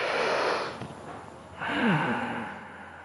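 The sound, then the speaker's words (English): A deep breath drawn in, then a slow exhale through the nostrils: two broad, airy rushes of breath separated by a short pause, the second softer and gradually trailing away. “I just took a deep breath and then I took a very slow exhale through my nostrils.”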